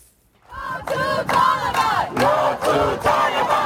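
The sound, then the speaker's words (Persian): Afghan women protesters in Toronto, Canada, chant slogans against the Taliban, a loud crowd of voices shouting short rhythmic phrases in unison, repeated in several strong bursts with brief dips between them. “صدای زنان افغان که در بیرون از افغانستان تنین می اندازد. معترضان در شهر تورنتو کانادا با سردادن شعارهای علیه حاکمیت طالبان”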